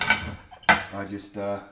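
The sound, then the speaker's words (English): Ceramic clinks of a teapot and cups being handled while making tea: two sharp knocks, each leaving a bright ringing tone that fades as the china is set down. “Tea's in the pot. Yes, I make tea and put it in a pot to stew.”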